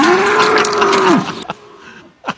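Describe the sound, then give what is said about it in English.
A bull moos at the Johnson County Fair in one long, loud bellow that holds a steady pitch and then drops sharply at the end, followed by quieter rustling and a brief soft thump. “We don't have a cow. We have a bull.”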